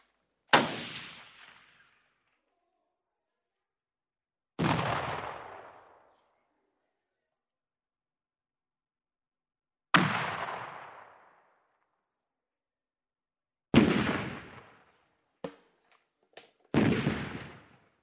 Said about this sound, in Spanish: Y acabamos de oír estos ruidos que simplifican el horror de la guerra.